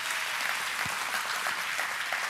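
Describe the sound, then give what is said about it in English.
Faint applause from a church audience during a sermon, a soft, steady patter of clapping that stays low and even throughout. “Anybody clap about that? Anybody here on that?”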